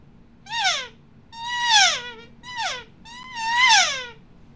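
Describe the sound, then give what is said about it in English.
Elk calf calls made by inhaling on a Phelps Easy Sucker diaphragm call: four nasal, whining mews, two short and two longer, each sliding down in pitch at the end, alone against quiet background. “And it's designed just like your tongue was pushing against that call. But instead of pushing air out, you're gonna inhale. So it sounds like this, makes perfect calf sounds.”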